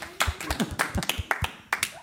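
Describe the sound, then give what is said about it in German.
Hands clap at an amateur community theatre performance in a quick, irregular run of separate sharp claps rather than a dense wash of applause, with voices talking underneath. “Ich würde sagen, da können wir mal applaudieren, oder?”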